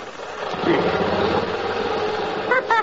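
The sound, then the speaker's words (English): Steady buzzing drone of a motor strapped by a belt to a tree to shake its leaves off. It runs continuously at an even level, with a couple of brief rattling bursts near the end. “All you do is wrap the belt around the tree and then around the motor. Then you fasten the buckle, and you're all set to shake those leaves right out of their sockets. Now, just watch.”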